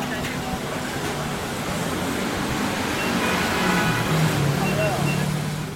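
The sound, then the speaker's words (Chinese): A dense, steady roar of motor scooter traffic near a street intersection beside a night-market pet shop fills the whole stretch, loud and continuous, with people talking mixed in. “因为距离路口非常的近，所以旁边的机车声非常的吵杂。”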